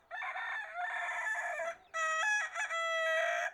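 A rooster crows twice on a large farm homestead among chickens: two loud, drawn-out harmonic calls, the second brighter and longer, with no talk.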